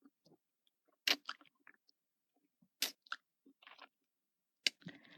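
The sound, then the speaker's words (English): Fingers are licked with quiet, wet mouth sounds: a few sparse smacks and slurping clicks separated by near silence, with a couple of slightly louder wet pops. “I bring them up to my mouth, licking them.”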